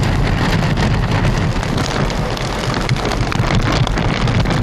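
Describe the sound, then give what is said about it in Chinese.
Heavy rain pours during a typhoon in Heng Fa Chuen, Hong Kong, a dense, unbroken hiss of water with wind noise buffeting the microphone throughout and no voices. “不过还是不时下起大雨。”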